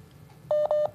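Telephone keypad dialing tones, a few short, clear beeps in quick succession over a faint background hum.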